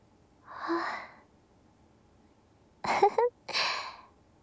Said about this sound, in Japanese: 大きなあくびだったね。